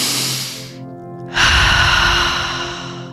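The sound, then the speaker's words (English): Deep, forceful breathing in a guided breathwork exercise: two long breaths, a rushing inhale and exhale separated by a brief lull, over a soft steady tone. “we're just going to continue taking nice deep breaths here, okay? We want a nice forceful inhale, a nice forceful exhale.”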